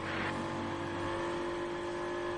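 An Aston Martin race car drives past during a motor race, its engine holding a loud, steady high-pitched drone and whine. The engine is heard alone without talk.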